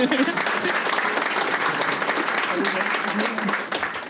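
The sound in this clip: Audience applause at a stand-up comedy show: dense, steady clapping fills the whole clip at an even loudness, with voices mixed in.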